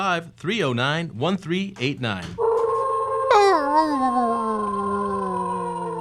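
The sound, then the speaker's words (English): A person imitates a dog: a run of short yipping vocal bursts, then one long sustained howl that jumps up in pitch and slowly slides down as it holds. “I'm howling for you”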